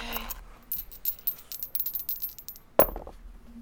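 Dice clatter during a skill roll in a tabletop role-playing game: a run of small, rapid, light clicks, then one sharper knock as the dice settle, with no voices.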